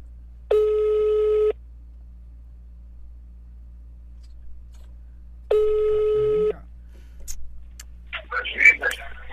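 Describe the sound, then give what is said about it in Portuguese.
An outgoing phone call rings out with two steady, one-second ringback tones separated by a long silent gap, followed by a brief voice and faint clatter near the end. “Agora eu tô ligando pra mulher dele, tô ligando pra mulher dele agora.”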